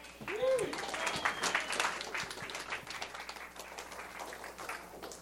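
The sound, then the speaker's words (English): An audience applauds to welcome a pastor, with steady, dense clapping throughout that eases slightly toward the end. “And welcome, Andy, with your hands.”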